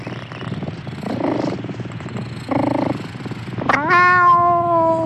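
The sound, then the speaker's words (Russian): A cat lying in the sun purrs with a rough, crackling rattle, low and pulsing for a few seconds, then gives a loud, drawn-out meow at the end. “Кот Ангорский, не обращая на нее внимания, развалился на солнышке, выставил грязно-серый живот, тощий хвост уложил красивым кренделем, глаза блаженно зажмурил и замурлыкал с треском.”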